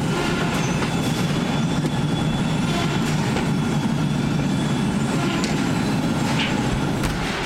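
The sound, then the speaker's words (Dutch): A tracked conveyor carrying bricks in a brick factory gives off a loud, continuous clattering rumble of machinery that stays steady throughout, with a busy rattle on top. “Hier voor ons gaan stenen over een soort rupsband. Worden ze weer in een andere vorm neergelegd. Dan gaan ze naar het volgende station.”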